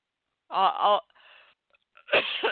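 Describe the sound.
Coughing from a tickle in the throat comes as a few strained, voiced hacks, a breathy rasping pause, then another harsh burst, fairly loud against silence.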